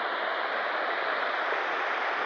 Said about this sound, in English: A little waterfall here.